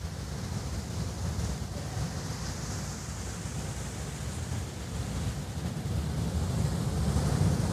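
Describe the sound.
Ocean waves roll in at a surfing beach crowded with surfers, a continuous rushing roar of surf mixed with wind. The roar swells slightly toward the end, with no voices.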